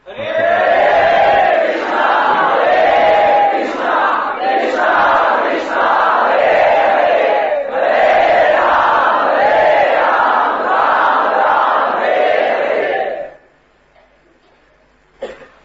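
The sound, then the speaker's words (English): An audience chants loudly together in Sankirtan style, many voices blending in steady, rhythmic, repeating phrases for about thirteen seconds before stopping abruptly into near silence. “the Sankirtan movement, the loud congregational chanting”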